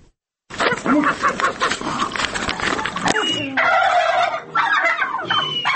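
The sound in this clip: A turkey gobbles in a village farmyard in Lagodekhi municipality, Georgia, at eight in the morning: loud, rapid, warbling gobbles come in bursts, then give way to more drawn-out tonal calls.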